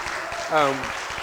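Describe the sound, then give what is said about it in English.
Audience applause answers a request to clap for a young woman, a steady wash of clapping with a voice speaking briefly over it in the middle. “Can I just get an applause for her?”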